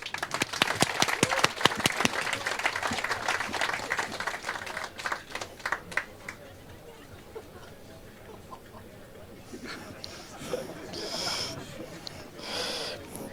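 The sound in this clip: Audience applause at a live event, honoring a performing group: many sharp, distinct claps ring out loudly at first, then thin out and fade after about six seconds into a quieter stretch.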